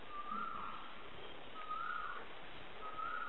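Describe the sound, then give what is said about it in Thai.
Birds singing: three repeated whistled phrases, faint and evenly spaced, over a steady background hiss. “นี่ร้องอีกแล้วดูมันร้ายไหมร้องมันร้องมันเยี่ยมเลยที่นี่นกเยอะนะลองฟังดูลองฟัง”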